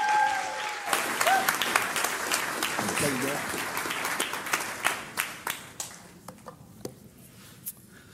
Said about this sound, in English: Would you put your hands together and welcome Pastor Larry Osborne.